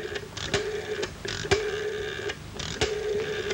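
Mechanical telephone dialing as a man redials a number from a handwritten list: a few sharp clicks over a steady low whirring hum, with no voices.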